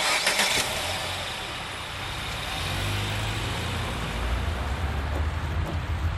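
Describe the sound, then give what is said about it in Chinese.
A car engine starts and then runs as the vehicle pulls away, a broad low rumble that rises slightly in pitch and grows steadier over several seconds, with no talk over it. “走吧，开车， 好， 往前开。”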